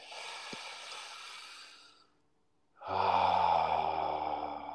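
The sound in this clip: Deep breaths during a closing breathing ritual at a ceremony: two long, breathy sounds with a short gap between them, the second louder and partly voiced like a sigh.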